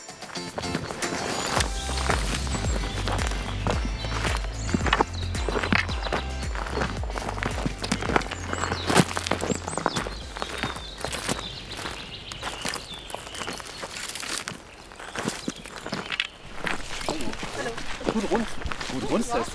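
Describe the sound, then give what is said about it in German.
Footsteps of hikers walking a long stretch of the Rennsteig forest hiking trail near Masserberg, a steady run of crisp, irregular steps that continues throughout at moderate loudness. “Wir laufen auf dem Rennsteig ein ziemlich langes Stück und da möchte ich euch gerne teilhaben lassen dran. Auf geht's”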